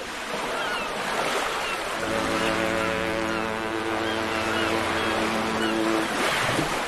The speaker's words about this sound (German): Aber wir beide, wir starten erstmal in ganz vertrautem Terrain hier bei uns zu Hause. Ja, nämlich im Hamburger Hafen.